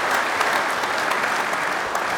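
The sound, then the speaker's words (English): Steady applause from many clapping hands, a dense continuous patter at even loudness throughout. “Applause for the claps.”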